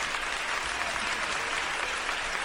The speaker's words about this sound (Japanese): 観客が次々と立ち上がり、割れんばかりの歓声、拍手。奇跡だ。本物の奇跡だ。